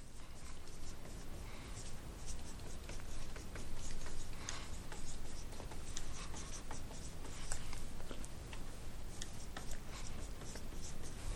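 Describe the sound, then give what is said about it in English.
Writing on a board during a lecture produces faint, scratchy strokes that continue in a dense, uneven stream for the whole stretch. “So let me write this up here, and then I'll start taking some questions.”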